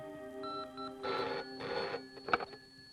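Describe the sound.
A telephone rings on a call placed to a police commissioner at a police station: two broad, buzzing ring bursts over a faint steady tone, fairly loud and with no talk.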